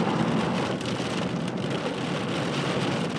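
Heavy rain pouring down on a road in a downpour: a dense, loud, unbroken hiss of drops that holds steady throughout, with no talking.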